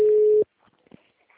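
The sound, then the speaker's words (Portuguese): A telephone call tone for a call that goes unanswered: one loud, steady, mid-pitched tone lasting under half a second, then near silence with faint scattered murmurs. “Gente, por que que a pessoa não me atende, Deus?”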